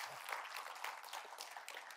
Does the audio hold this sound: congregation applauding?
yes